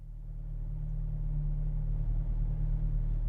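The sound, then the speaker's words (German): A stolen police car drives along with a low, steady engine rumble. The deep, constant droning hum swells slightly at the start, then holds even, with no voices. “seine Beute in einem gestohlenen Polizeiauto nach seiner Wahlheimat Chicago zurück”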